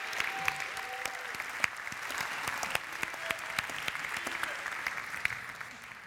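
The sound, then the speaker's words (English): An audience at a worship service claps to welcome a guest speaker: dense, steady applause that holds at an even level, with no voices rising above it. “Would you give Dr. Ernest Cole a loud welcome?”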